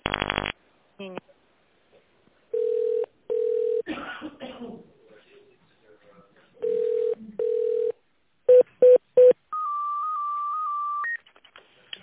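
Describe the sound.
Telephone keypad tones dial an extension during a call to a construction company's automated menu: two pairs of steady beeps, then three quick short beeps, then a longer, higher held tone, with some rough noise between them.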